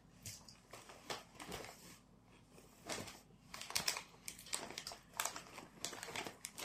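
A crisps packet crinkles faintly with irregular rustling bursts that grow busier and a little louder in the second half.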